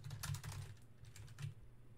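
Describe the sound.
Faint, irregular clicking of keys on a computer keyboard while someone types out a tweet, with many light taps in quick uneven bursts and short pauses between them.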